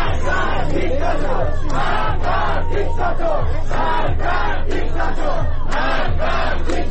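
Protesters at mourning ceremonies in Iran for young people killed by security forces chant slogans in rhythmic unison, loud shouted phrases repeating steadily with short gaps between them over a low hum.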